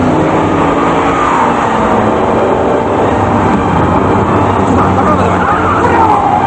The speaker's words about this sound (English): He backs past them, turns the car, and drives away in the opposite direction.